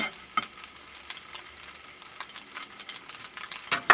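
Sizzling of scallions and chili being stir-fried for salted egg squid, a steady crackle with a few sharper stirring clatters that grow louder near the end.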